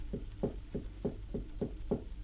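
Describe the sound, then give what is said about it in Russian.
Soft, evenly spaced knocking on a classroom door during a primary-school reading lesson: seven light raps in a steady rhythm, faint throughout. “И тут вдруг послышался стук в дверь, слабый такой, еле различимый стук.”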